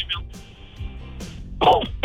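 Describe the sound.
A person coughs a few times in short, sharp bursts separated by pauses.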